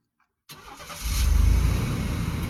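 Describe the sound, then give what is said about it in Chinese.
A car engine bursts into life out of silence as the driver presses the accelerator, a low rumble swelling quickly into a strong, steady drone that holds at a loud level. “青桑踩下油门”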